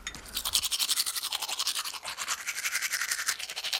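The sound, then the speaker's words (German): Teeth are brushed with a toothbrush and toothpaste in quick, rhythmic back-and-forth scrubbing strokes, many of them in steady succession, fairly faint and heard alone. “So, jetzt noch Zähne geputzt. Ja, Zahncreme drauf, so.”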